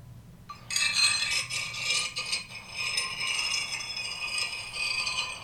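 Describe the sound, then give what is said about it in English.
A fork scrapes against a plate in a continuous, shrill, grating screech that starts abruptly and keeps going for several seconds, with no talk. “It's scraping the fork against the plate.”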